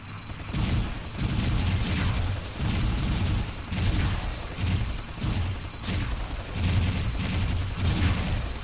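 Enemy gunfire in a video game boss fight, heard as many loud bursts of shots in a rough repeating rhythm, each with a booming low end and a crackling top.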